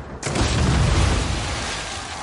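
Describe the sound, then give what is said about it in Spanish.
A wrecked Chevrolet explodes in the air above the sea with a sudden, sharp blast, followed by a loud, broad roar that holds steady and fades only slightly to the end. “El destrozado Chevrolet se eleva varios metros sobre el mar y explota en el aire.”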